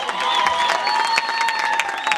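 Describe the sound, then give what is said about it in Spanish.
Applause and crowd noise for a street cumbia band: dense, steady clapping with voices mixed in, holding at an even level throughout. “Hay aplauso para esta banda, loco.”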